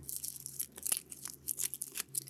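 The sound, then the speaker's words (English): A dried black-eyed Susan stem is cut back, giving off crisp, dry crackling and crunching. Several short, brittle snaps sit over a faint steady hum. “This is a pretty nice stem. I bet it's going to have a hollow center. If I cut this stem back now,”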